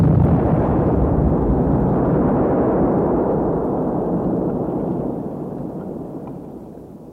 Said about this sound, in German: Janek hat seine Bombe geworfen. Es ist erreicht.